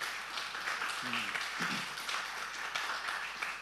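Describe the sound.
Applause welcoming a speaker at a church gathering: a steady wash of clapping from a crowd, holding at an even level with a few voices mixed in.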